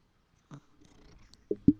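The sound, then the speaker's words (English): Soft purring from a cat rubbing against a microphone, faint and low, broken by a few dull bumps and brushing noises where the fur touches the mic. “If you hear the noises, that's the cat. That cat's rubbing up against the mic.”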